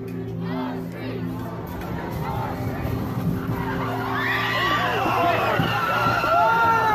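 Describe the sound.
A car driving into a crowd of counter-protesters at a rally: tires skidding, then screams and shouts from many people that grow louder toward the end.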